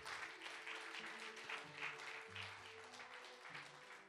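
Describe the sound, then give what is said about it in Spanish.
Faint audience clapping during an evangelical church service, a steady rhythmic patter of many hands carried along over low sustained musical notes that shift pitch a few times. “Dele palmas al Señor, hermano.”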